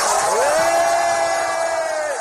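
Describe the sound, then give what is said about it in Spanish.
Students cheer and whoop in school hallways as a retiring teacher walks past on her last day. A loud, dense crowd noise carries one sustained high shout that rises, then holds steady before dropping away. “Maite se emocionó y mientras se adentraba por los pasillos del centro educativo y bajaba las escaleras entre los aplausos de los alumnos, los abrazaba mostrando su satisfacción por ese cariño recibido.”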